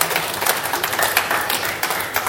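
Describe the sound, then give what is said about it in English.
A church audience claps in praise during a worship service, a dense, steady burst of many hands clapping together throughout. “Give the Lord a clap of praise, everybody.”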